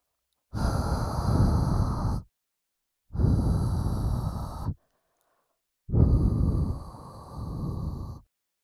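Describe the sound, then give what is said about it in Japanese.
Gentle blowing clears away fine dirt as the final finishing step: three long, soft puffs of breath, each lasting one to two seconds, separated by short silent pauses. “ふぅふぅして、細かい汚れを吹き飛ばすのが最後の仕上げなので。”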